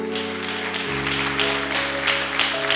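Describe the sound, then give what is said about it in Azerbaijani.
Audience applause after a sung performance: steady, dense clapping runs through the whole clip, with sustained musical tones underneath. “Çox sevdiniz Yaxan Şirinova rəydən alqışlayırıq”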